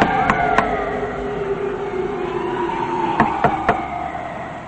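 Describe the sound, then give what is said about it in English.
A man knocking on a car window: sharp knuckle taps, two early and three in quick succession near the end, over a steady wavering drone. “Later, she's in another car, resting her head against the window when a man knocks.”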